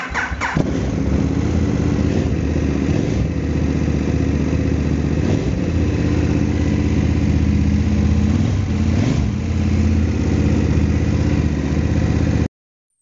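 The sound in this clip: A KTM motorcycle engine cranks and catches right away, then runs loud and steady at a rumbling idle for the whole stretch before cutting off abruptly.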